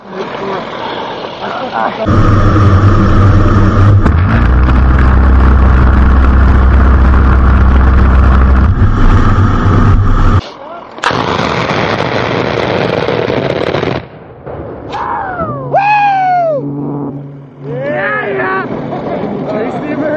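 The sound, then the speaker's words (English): Cannon fire from an A-10 attack aircraft's gun run: a long, loud, low roaring burst of rapid fire, then a second, shorter burst, followed by shouting voices. “They're about to do a gun run. You need to get down.”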